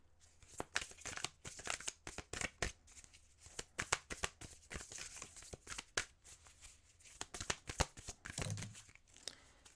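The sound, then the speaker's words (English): A new, stiff deck of cards is shuffled for a card reading: many quick, faint riffling bursts of crisp paper flutter, with short pauses between them. “These are new cards, so it's gonna take some time, some usage for it to work the way it needs to.”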